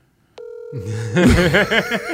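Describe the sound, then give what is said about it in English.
A ringback tone sounds on an outgoing phone call, a steady electronic tone that starts abruptly after a moment of silence and holds throughout, with a voice rising over it in the second half. “I'm giving one more ring if it don't go voicemail.”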